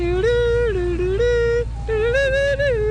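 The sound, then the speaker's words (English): An ice cream truck jingle plays a simple, bright electronic melody of steady held notes stepping up and down in pitch, loud and clear over a constant low droning hum. “As for Joseph Lutu, the ice cream truck driver, he wouldn't mind switching up the playlist. There's only 8 tracks to choose from,”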